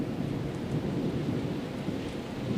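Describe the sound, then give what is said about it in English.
A thunderstorm recording from Irv Teibel's Environments series: steady, soft rain hiss over a low, continuous rolling rumble of thunder, with a fairly even, quiet level throughout. “You're actually listening to a thunderstorm, the ultimate thunderstorm, perhaps, Irv Ty Bell's Ultimate Thunderstorm from his Environments series.”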